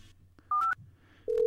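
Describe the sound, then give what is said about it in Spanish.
Telephone keypad dialing tones as a call is placed: a few short electronic beeps in two bursts, separated by a brief quiet gap over a low background hum. “Estamos llamando al señor Jonathan, el poeta del cyberpunk.”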